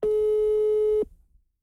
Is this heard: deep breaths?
no